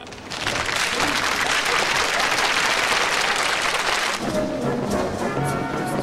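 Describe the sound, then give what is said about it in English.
Applause from dancers at a dance among hospital patients and nurses, a dense, steady clatter of many hands lasting several seconds, thinning slightly toward the end. “Dancers stop and applaud.”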